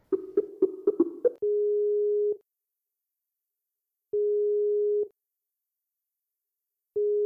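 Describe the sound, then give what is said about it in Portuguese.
Telephone ringback tone on an outgoing call: a quick run of short dialing beeps, then a steady, mid-pitched tone that sounds in long pulses of about a second, separated by silent gaps, with a third pulse starting at the end. “Vamos ligar aqui para o Edu Sasser do Logado Cast.”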